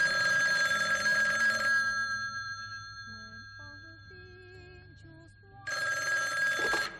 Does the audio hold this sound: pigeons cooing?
no